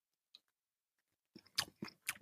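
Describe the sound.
Chewing on a bite of eggnog cake: a few soft, crunchy mouth sounds in a loose rhythm, preceded by a single faint click, with no talk.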